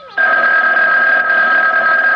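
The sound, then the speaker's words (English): A telephone rings with a loud, steady electronic trill that starts after a brief quiet moment and continues unbroken to the end, with no voices. “And then the phone rang. I let it ring.”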